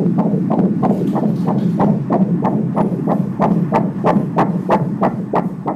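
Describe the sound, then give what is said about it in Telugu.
Fetal heartbeat picked up during an ultrasound scan, a loud, fast, steady train of whooshing pulses, about two to three per second, with a rhythmic swish over a constant low hum. “Heart beat అది మంచిగా ఉన్నది నాన్న”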